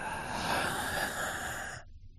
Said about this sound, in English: And then number two, you're going to breathe deeply.